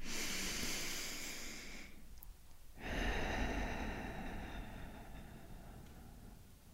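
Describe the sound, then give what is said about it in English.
A slow, deep breath is drawn in through the nose, then after a short pause comes a long, airy exhale out through the mouth. Both are soft and steady, with no talking. “let's take a deep breath in through our nose and out through our mouth.”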